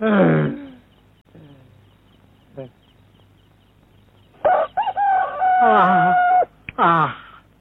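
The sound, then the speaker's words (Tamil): A rooster crows in a long, loud, drawn-out harmonic call in the second half, and a few shorter, fainter sounds come before it. “மனுஷன் தான் 8 மணிக்கு எழுந்திருக்கிறான்னா, சேவல் கூட 7 மணிக்கு தான் எழுந்துச்சு கூவுது.”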